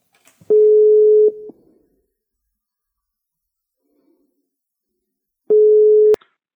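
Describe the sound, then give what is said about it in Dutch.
Ringback tone while calling a helpline: two steady, plain electronic tones, each about a second long, separated by a long silence, loud and with no talk over them. “Ja, zullen we de hulplijn bellen? Ja, die gaan we even bellen.”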